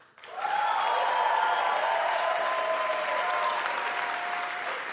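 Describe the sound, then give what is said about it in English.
An audience applauds loudly so that an applause-o-meter can measure it, with dense clapping that starts abruptly, holds steady for several seconds and eases slightly near the end. “we'll measure it with our applause-o-meter right here. Remember the criteria? Was it something you didn't know? Was it something that's worth knowing? And was it demonstrably true? Okay, first, make some noise, please, for Steve Levitt.”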